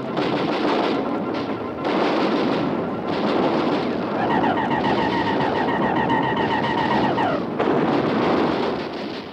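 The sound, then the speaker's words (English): Artillery batteries firing in a heavy barrage: a loud, dense, continuous rumbling roar with no clearly separated shots, and a thin whining tone running through the middle stretch. “They're coming at us! All batteries, repeat fire!”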